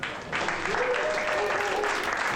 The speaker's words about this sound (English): All right. Come on, everyone. Keep that applause going.